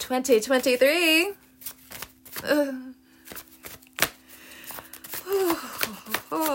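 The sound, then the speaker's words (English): Tarot cards being shuffled, with a few papery flicks and snaps between vocal sighs and groans. “Oh, just, you know, gotta keep shuffling the cards.”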